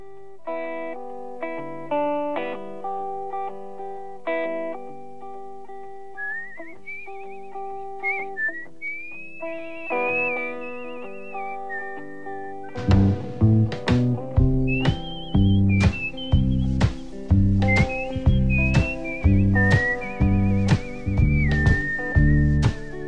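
Melodic whistling carries the tune of a self-penned song about a highway. It begins over sparse instrumental backing, then continues over a fuller, steadily pulsing accompaniment with regular beats.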